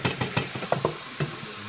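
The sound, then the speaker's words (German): Wild mushrooms, milk caps and boletes, fry in a pan on a stove, with a soft sizzle under several clicking, scraping stirs, fairly faint and with no talking. “steht inzwischen am Herd und brät die Milchbrätlinge und Rotkappen.”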